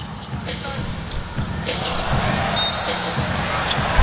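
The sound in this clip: A basketball is dribbled during a game, its faint, repeated bounces sitting under steady crowd noise.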